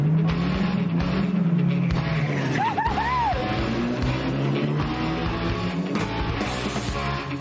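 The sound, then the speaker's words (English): Loud, sustained engine roar from a homemade scrap-built racing car doing a burnout at Rockingham race circuit, with strong low harmonics and brief warbling high tones partway through. “Stand back for a fast and furious, adrenaline-fueled burnout.”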